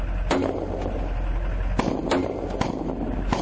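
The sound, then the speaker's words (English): A few sharp gunshots from bullets fired in an urban area, cracking at irregular intervals over a steady low rumble. “You can hear the bullets.”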